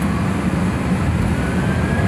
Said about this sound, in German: und dann sind wir gerollt und gerollt vorbei an den großen Kerosintanks am Lufthansa Cargo Center in Richtung Startbahn Nordwest.